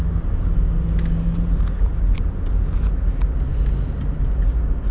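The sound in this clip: A car driving slowly along a road: a steady low rumble throughout, with faint higher rattles here and there and no voices.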